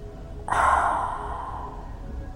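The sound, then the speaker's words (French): A single forceful exhaling breath, shown during a guided release exercise, begins with an abrupt, strong rush of air that slowly fades over about two seconds, alone with no talking. “Nous pouvons aussi le faire sortir par un autre souffle, si vous voulez essayer. Je vous montre.”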